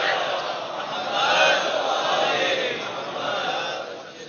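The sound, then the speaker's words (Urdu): A crowd shouts the religious slogan Naara-e-Haidari, a dense, loud roar of many voices that swells slightly around the middle and holds steady throughout. “نعرہ حیدری نے کہا آپ نے”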